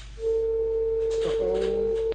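A telephone line sounds after a radio show caller is disconnected: a steady, single-pitched tone holds for about two seconds, with a fainter lower tone joining near the end.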